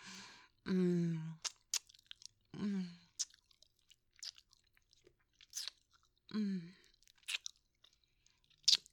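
Gum being chewed with wet smacking and clicking sounds, spaced out and fairly faint, alternating with a few short hummed vocal sounds.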